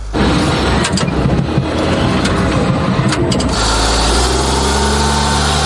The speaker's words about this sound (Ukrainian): Попри свої чималі розміри, «Хаймарс» легко набирає швидкість, і це ще пересічною місцевістю.